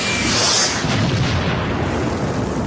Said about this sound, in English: Look out! Look out, people! It's a bomb!